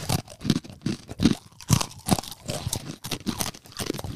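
Crunching of salted lye pretzel sticks, sold as broken pieces, being bitten and chewed: many sharp, dry crunches in an irregular, steady rhythm with no talk.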